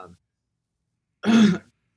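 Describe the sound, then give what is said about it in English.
Someone clears their throat in one short, rough, rasping burst, after a brief fragment of voice and a moment of near-silence. “ooh, there's something in my throat.”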